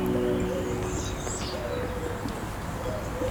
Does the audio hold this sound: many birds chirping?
yes